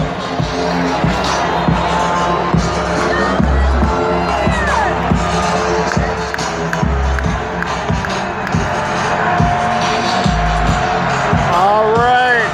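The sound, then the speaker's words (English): Football crowd cheering at TCF Bank Stadium during a Gophers vs Michigan game: a loud, sustained roar with scattered whoops rising above it, continuing without a break for the whole stretch. “Crowd is hyped.”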